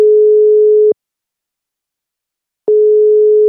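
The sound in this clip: Telephone ringback tone on an outgoing call: a steady mid-pitched hum cuts off, a silent gap follows, then the same tone returns and holds to the end, loud and alone.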